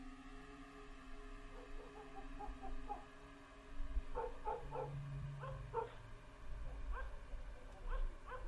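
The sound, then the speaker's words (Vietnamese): Village dogs bark at night in a faint, continuous run of many short, overlapping barks and yips. Some sound whiny, and no one talks. “Chó ở trong thôn bắt đầu gằn lên mà sủa nhấm nha nhấm nhằng.”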